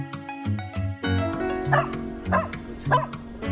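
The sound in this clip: A dog barks in short, yipping bursts at a fairly regular rhythm, several sharp barks sounding over a steady tonal background.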